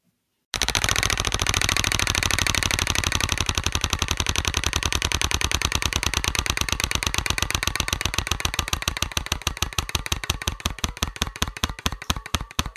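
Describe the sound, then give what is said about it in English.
A prize wheel spins in a card-drawing game, its rapid ratcheting clicks starting as a dense rattle and steadily slowing and spreading apart until they nearly stop. No voices are heard over it. “So we're going to spin the wheel again.”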